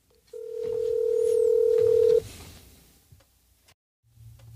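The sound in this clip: A phone tone sounds while calling someone back: a single steady, fairly loud mid-pitched tone holds for about two seconds, then stops abruptly, leaving quieter rustling and a few faint clicks.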